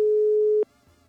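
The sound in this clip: Telephone ringing tone on a call that goes unanswered: one steady mid-pitched tone, just over half a second long, that stops abruptly.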